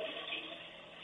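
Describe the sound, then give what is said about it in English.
A toilet flushing and water draining: a short, faint, steady rush of water lasting about a second. “I'm going to flush it. Let's see if it works.”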